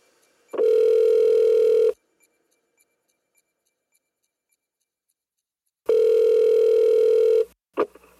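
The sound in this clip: A telephone line tone for an outgoing call: two long, steady, mid-pitched tone bursts separated by several seconds of silence, then a short sound at the very end.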